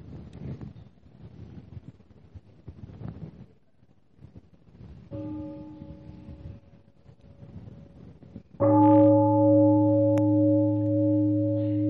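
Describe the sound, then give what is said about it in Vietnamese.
A meditation bell is struck once during a Buddhist dharma talk after soft rustling, then rings on loudly with sustained, steady, layered tones that slowly fade. “mình nghe một tiếng chuông rồi mình tiếp tục.”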